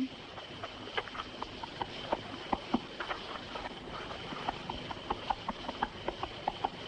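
Hooves clip-clop in an uneven, continuous patter as a horse-drawn wagon approaches, with light clicking knocks over a constant hiss.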